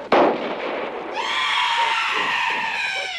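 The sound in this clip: Gunfire aimed at a shooter on a roof: one sharp, loud shot cracks at the start, followed about a second later by a long, high, wavering tone that holds to the end.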